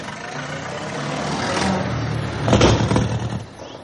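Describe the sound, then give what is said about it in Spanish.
Engine of an old, battered convertible car driving off, a mid-pitched rumbling drone that builds gradually and swells to its loudest near the end before easing slightly. “Paul está al volante del viejo y desvencijado descapotable.”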